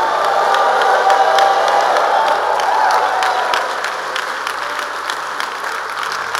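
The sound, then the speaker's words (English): A church audience claps and cheers together in a dense, steady wash of applause, with scattered whoops and shouts on top. The noise holds strong, then eases slightly in the second half but keeps going to the end. “Stand to your feet and jam those two precious hands. If you know victory has come, then make a joyful noise unto the Lord.”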